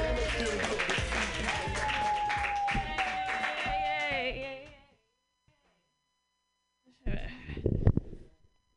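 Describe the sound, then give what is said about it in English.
Audience applause for a comedian at a stand-up show: steady clapping and cheering with a voice over it, fading out after about five seconds, followed by a silence and then speech. “Put your hands another together for Natasha Vinnick, yay!”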